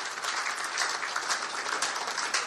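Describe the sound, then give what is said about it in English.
Audience applause for football league champions: dense, steady clapping that holds at an even level throughout, with no voices. “Can we give them a round of applause, please?”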